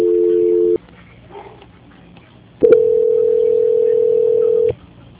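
Telephone tones during a call transfer: a short steady tone, a brief quiet gap, then a longer unbroken tone of about two seconds at the same level before it cuts off.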